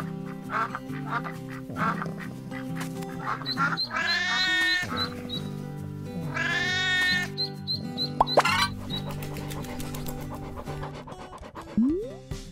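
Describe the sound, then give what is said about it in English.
Quacking calls of a duck and its ducklings rise in a few short bursts over a bright, bouncy instrumental tune that plays throughout. “A duck. And baby ducks.”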